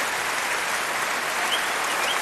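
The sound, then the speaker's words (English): A concert audience gives a standing ovation after the Munich Philharmonic Orchestra performs. Applause sounds as a dense, even wash of clapping throughout, with no single voice standing out. “And I can tell you that has prompted a standing ovation from many in the audience here.”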